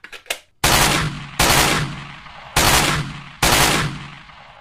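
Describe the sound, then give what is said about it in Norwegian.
Loud rifle shots from a red deer hunt, fired by a kneeling shooter: a couple of faint clicks, then four sharp, booming cracks, each ending in a long fading tail, spaced about a second apart. “Han setter seg ned på kne, lader børsa, har kronhjorten i sikte, og så skyter han.”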